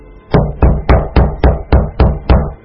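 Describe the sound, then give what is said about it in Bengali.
Eight loud, evenly spaced knocks of a door knocker on a door at night, struck in a steady rhythm with no voices. “ভীত সন্ত্রস্ত নবগোপাল দরজায় কড়া নাড়ল”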